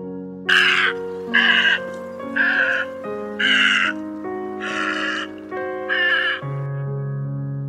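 Storks crying mournfully while flying over a city. Six harsh, nasal caws come at fairly even intervals, each loud and about half a second long, over a steady low sustained tone that continues throughout.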